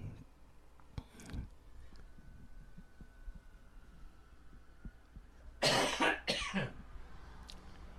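A person coughs a few times: a short burst early on, then a louder, harsher pair of coughs near the end, over a low steady hum.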